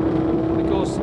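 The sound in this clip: A sidecar racing motorcycle engine gives a brief, steady droning roar with a constant low hum, heard under a voice.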